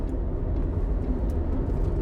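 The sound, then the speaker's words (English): A car driving on roads around Mount Rainier gives off a steady, low, rumbling engine and road noise that holds at an even level throughout. “I'm driving to pick up Benjamin right now, and it is like the most gorgeous day ever to be driving around Mount Rainier.”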